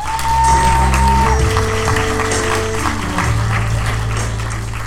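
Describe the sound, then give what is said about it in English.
Audience applause greets a comedian coming on stage at a comedy show: steady, dense clapping that holds evenly through the whole clip. “Everybody make some noise, put your hands together for Daniel Krause.”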